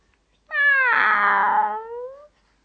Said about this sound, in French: un autre chat qui nous dit j'ai peur mais un chat n'a jamais peur